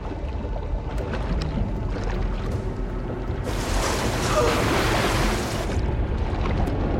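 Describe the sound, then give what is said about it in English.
Water sounds as a person dives into the sea and swims, carrying another person: a steady low rumble of water, broken in the middle by a louder rush of splashing and churning. “Chris takes Connor, then dives down and swims after Dylan, who leads the way.”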